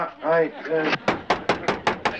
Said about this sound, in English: I think you better knock again.